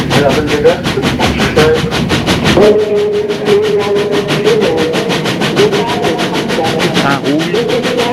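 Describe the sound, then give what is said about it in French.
A train pulling away from a station, heard as a steady loud rumble with rapid, regular clicking throughout and a sustained hum that starts partway through. “Deux minutes plus tard, le train file.”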